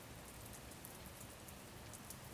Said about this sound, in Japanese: 雨粒が木々を叩く音、ポツンポツン、雨風で